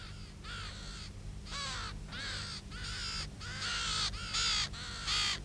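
Two ravens caw in a string of harsh, rasping calls at an irregular rhythm, with a steady low hum underneath.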